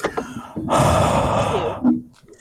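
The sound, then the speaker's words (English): A long, loud breathy exhale blown straight into a microphone, a rushing hiss lasting about a second, followed by a shorter puff of breath, with no talking. “I felt your breath in my ear.”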